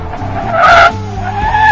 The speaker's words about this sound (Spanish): Iba yo manejando, güey. Y pues lógicamente tuve que hacer un alto.